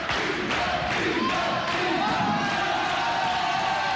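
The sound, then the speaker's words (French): Live audience cheering, heard as a dense, steady crowd roar that holds at an even loudness for the whole stretch, with no clear breaks or single standout shouts. “Jean-Pierre, arrête la musique. Écoute le public, écoute.”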